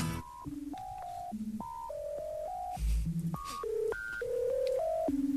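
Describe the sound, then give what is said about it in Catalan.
Telephone dialing tones woven into a song, a long run of short beeps stepping between different pitches over a steady musical backing. “Però diguem-ne que es va integrant el to de, de la trucada dins de, de la cançó.”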